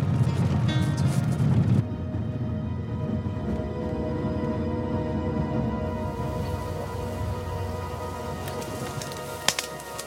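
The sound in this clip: A car being driven to a remote location gives a steady, low road-and-engine rumble that runs unbroken throughout, with no talk and one brief knock near the end.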